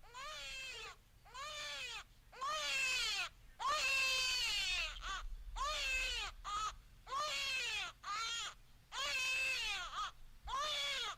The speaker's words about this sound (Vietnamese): Khoảnh khắc tiếng khóc chào đời của đứa bé cất lên ở bên trong